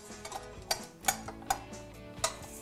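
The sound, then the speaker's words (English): A stand mixer runs with its paddle attachment, giving a low, steady motor hum with a few sharp ticks at uneven intervals. The sound is fairly quiet and there is no talk. “Okay, gonna pop this on the mixer. Trusty paddle attachment.”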